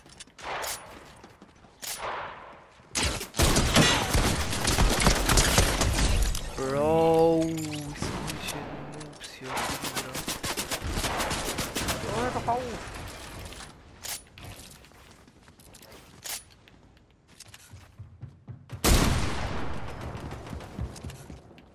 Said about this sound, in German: ich hatte die Scar plötzlich in der Hand, obwohl ich eigentlich mit der Pump schießen wollte.